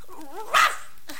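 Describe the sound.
A puppy gives a single short, sharp, high bark after a brief faint wavering whine.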